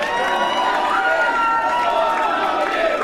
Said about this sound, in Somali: afar sano oo kale ayay ku qaylinayeen taageerayaasha bremiyerku